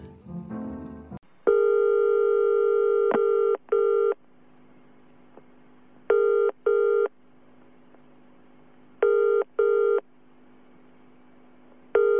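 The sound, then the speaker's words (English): Dialing on an outgoing telephone call, then a long steady tone and three pairs of short ringing beeps, each pair followed by a pause. The tones sound clear and even over a faint background hum. “A couple of months later, I gave Claude a call just to see how he was doing.”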